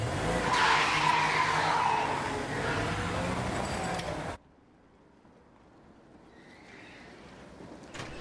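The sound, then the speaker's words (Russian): Tires skid as a red van brakes hard beside a small roadside building, giving a loud, harsh screech for about four seconds that then cuts off to near quiet. “Красный фургон тормозит возле небольшого здания у дороги.”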